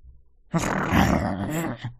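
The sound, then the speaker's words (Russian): A wolf gives one low, rough growl that holds steady for over a second before trailing off. “Проворчал волк, устало усаживаясь на землю.”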